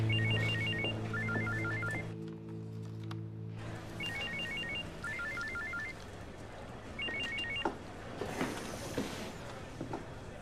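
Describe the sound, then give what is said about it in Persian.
A telephone rings in trilling bursts grouped in pairs, repeating several times with short pauses between, under a faint low hum and some creaking mechanical noise. “خانم بازرس، زنگ زد.”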